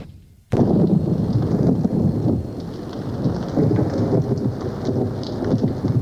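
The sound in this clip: Heavy rain and a thunderstorm pour down over a muddy scene where a fight is taking place. The dense, hissing downpour with a deep rumble bursts in suddenly after a brief quiet moment, then stays loud and steady throughout.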